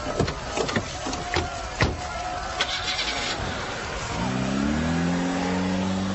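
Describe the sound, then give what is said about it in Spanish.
A car engine starts and revs as the vehicle drives off in a hurried escape. It follows a few sharp thuds and clatters, then becomes a loud, steady roar whose pitch climbs slightly. “¡Suban al auto! Yo conduciré.”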